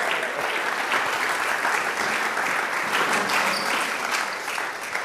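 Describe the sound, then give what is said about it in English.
Dense, sustained applause from an audience welcoming a panel onto a stage, many hands clapping at an even, fairly loud level throughout. “Come on, let's give these guys a hand.”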